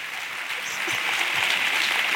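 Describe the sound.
Audience applause at a live show: a dense, steady patter of many hands clapping that swells slightly and holds throughout.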